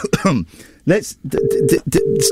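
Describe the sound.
Ringing tone of an outgoing call to a public phone box outside Parliament in London: a steady low double ring, two short matching bursts with a brief gap, following a voice talking.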